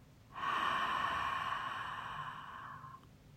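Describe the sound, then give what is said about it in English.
A single deep exhale through an open mouth during a guided breathing exercise, lasting about two and a half seconds. It is a steady, breathy, slightly voiced sigh that starts abruptly and tapers gently at the end, with no talk over it. “Take a deep breath in through your nose. Open your mouth. Exhale.”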